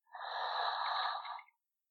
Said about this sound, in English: Deep breath in, hold. Deep breath out. Once more in.